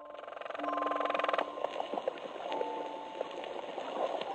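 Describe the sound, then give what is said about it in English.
Underwater croaker fish sounds: a rapid, riveter-like train of drumming pulses lasting about a second, then scattered fainter knocks and clicks over a soft hiss, all fairly quiet. “That thing that sounds like a riveter? It's actually a fish. A fish called a croaker.”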